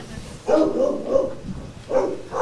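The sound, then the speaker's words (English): Caged dogs bark in the kennel room of an animal shelter. A few loud, raspy barks come in quick bursts over a rough, noisy background. “When you walk into the room where the dogs are kept at the Baltimore County Animal Shelter, be prepared for a boisterous greeting.”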